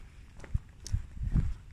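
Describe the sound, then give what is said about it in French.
Footsteps of someone walking outdoors in fog, a few dull, low thuds at uneven intervals, quiet against faint background noise. “Et là, depuis que j'ai quitté la maison, je marche dans le brouillard.”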